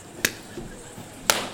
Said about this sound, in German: Was soll denn das für Klatsche jetzt?